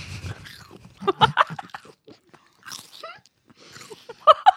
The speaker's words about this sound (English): You know, I love celery. I'm eating an olive, a stuffed olive.